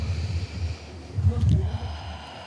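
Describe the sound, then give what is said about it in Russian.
Deep breath drawn in and let out through the mouth during a breathing exercise before group chanting, heard as two breathy rushes of air, the second longer and louder. “Сейчас мы один раз вдохнем как следует, и один раз выдохнем через рот”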